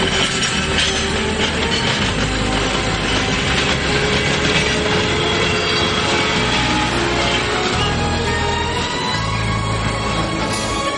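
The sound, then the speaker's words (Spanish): A train gets underway again, a loud, continuous rumble of rail cars with rattling clatter and hiss that holds steady throughout, with no voices. “Tras ellos el tren se pone en marcha de nuevo.”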